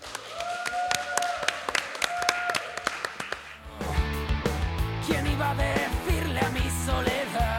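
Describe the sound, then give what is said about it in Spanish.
Scattered audience claps at the opening of a live show at a multimedia event in the Faculty of Computer Science in A Coruña, sharp separate hits over a faint tone, followed by loud music. “¡Un aplauso, por favor!”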